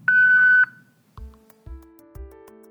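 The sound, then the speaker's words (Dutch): A voicemail beep tone before a message is left: one loud, steady, mid-pitched beep held for about half a second, followed by three deep thuds with low ringing tones. “Hallo, ik ben er even niet, maar laat gerust een berichtje achter naar de toon”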